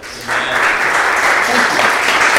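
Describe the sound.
An audience at a religious gathering applauds to welcome a speaker. The dense clapping starts quieter, then swells after a moment and stays loud and steady to the end.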